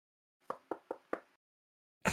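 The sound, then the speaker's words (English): Knocking on a door: four crisp, evenly spaced knocks in quick succession, fairly quiet, followed by a short silence and another brief sound. “Can I go knock on Darren's door and ask him if the cat's in there?”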